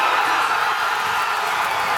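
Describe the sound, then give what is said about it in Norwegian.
Crowd of Norwegian football fans cheering and celebrating the national team's World Cup win over Ivory Coast during an all-night party, a steady, loud roar of cheers and shouts without breaks. “Folk har festat I hela natt och jublen kunde man höra från norr till söder.”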